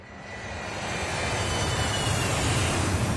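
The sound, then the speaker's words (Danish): An airplane flying in to land, with a steady, broad engine roar that grows slightly louder and holds without pause. No voices are heard. “Og flyver videre. Vi skal til USA igen. Velkommen til. Vi er lige landet.”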